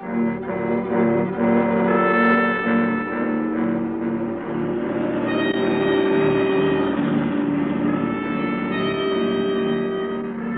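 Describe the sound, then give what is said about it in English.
A car engine drives into town with a steady mid-pitched hum and layered harmonics that shift as the motor works, swelling around two seconds and again near six. “The drive into town seemed endless, but at last I pulled up in front of the hotel.”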